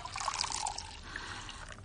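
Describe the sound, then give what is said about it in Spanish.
Water poured into a glass at a hospital bedside, a faint, steady trickling splash lasting under two seconds, heard alone. “Le sirve el agua.”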